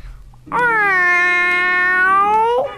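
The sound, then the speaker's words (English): A human voice imitates a cat's meow with one long, loud, sustained nasal wail lasting about two seconds, holding a steady pitch before cutting off. “No, no, that's a cat.”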